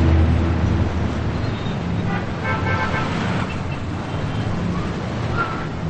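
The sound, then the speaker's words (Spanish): Steady traffic rumble from cars driving both ways along a long avenue, a continuous broad wash of road noise with a short horn toot partway through. “De día los coches circulan en ambos sentidos por la larga avenida a la que asoma el jardín de la gran casa de las niñas.”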